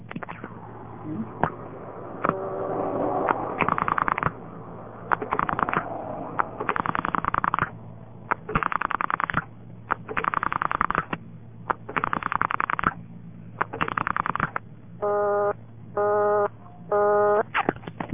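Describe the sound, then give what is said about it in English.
Clicking of a step-by-step telephone exchange as a payphone number is dialed: bursts of rapid mechanical clicks in separate groups with short pauses between them, ending with a few short steady tones. “For example, this is the payphone number being dialed.”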